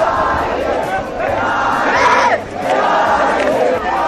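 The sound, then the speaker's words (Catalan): A crowd shouts and cheers at a youth battle competition at the Arc de Triomf in Barcelona. The loud yells and cheering surge in waves, dip briefly twice, and swell highest near the middle. “Que jutjant pel que esteu escoltant podria ser qualsevol persona animant, potser, en un partit de futbol. Aquest és el so, per això, d'una d'aquestes primeres batalles a la ciutat de Barcelona. L'escenari triat ha sigut l'Arc de Triomf.”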